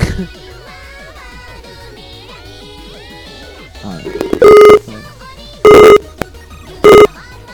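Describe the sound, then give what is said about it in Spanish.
A telephone is hung up and the call redialed: voices are heard first, then three loud, evenly spaced electronic tone bursts sound in quick succession. “Esperamos un poquito, voy a cortar otra vez y te llamo de nuevo.”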